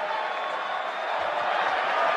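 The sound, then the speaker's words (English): A baseball crowd on its feet cheers for the closing pitcher after strike one, a dense, steady roar that builds slightly toward the end. “Strike one, and the crowd on their feet here. They are cheering for Mason Miller to close out a game for the 12th time this year.”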